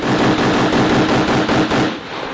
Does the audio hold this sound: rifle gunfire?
yes